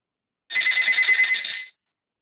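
A telephone rings at a building's front desk: one bright, trilling electronic ring burst a little over a second long, heard alone.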